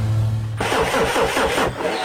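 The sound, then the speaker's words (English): A car engine fails to start as the starter motor cranks in fast, rhythmic churning pulses. The cranking is loud, follows a low steady hum, and never catches into a running idle. “your car won't start. Looks like it's pulled a sickie.”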